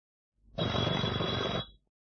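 A telephone bell ringing: one continuous, buzzing trill lasting about a second, with a sharp start and a quick fade, heard alone.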